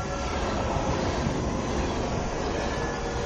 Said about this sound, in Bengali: শেষ ট্রেনের হুইসল বাজিয়ে ছুটে যাওয়া